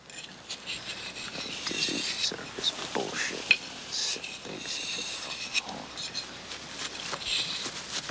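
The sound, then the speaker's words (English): A knife scraped repeatedly on a spit-wetted whetstone at a hut, giving steady, gritty scraping strokes with a few sharper metallic accents and a low background murmur throughout. “He spits onto a whetstone, then sharpens his knife on it.”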